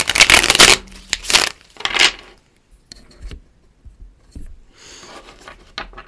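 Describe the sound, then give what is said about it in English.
Shuffling of a colorful tarot deck: a few dense, riffling bursts of card flutter in the first two seconds, then softer, scattered slides and taps with no voices. “let's read some cards. I'm reading from the Spirit Science Tarot deck.”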